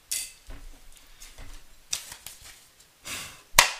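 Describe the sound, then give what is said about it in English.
Tarot cards being handled and set aside after a reading: soft, scattered rustles and light slaps of card stock, irregular and faint, ending in one sharp, louder snap. “Let me go ahead and get to the tarot deck right quick. I'm going to set these cards to the side.”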